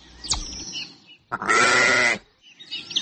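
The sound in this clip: A single loud, wavering sheep bleat lasts under a second, with a sharp click before it and fainter sounds around it.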